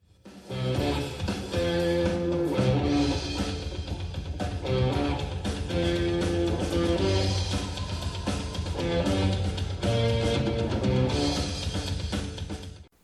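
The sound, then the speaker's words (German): A short piece of band music from a live gig plays on its own, loud and steady for about 13 seconds, with sustained tonal chords over a strong, full low end and no voices. “Was Sie gerade gehört haben, war für Sie nur ein kleines Stückchen Musik.”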